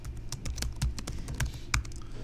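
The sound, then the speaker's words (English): A login password is typed on a computer keyboard, with many faint, irregular key clicks tapping out in quick succession, some keys struck harder than others. “I'll log in with DGR. The password will be that.”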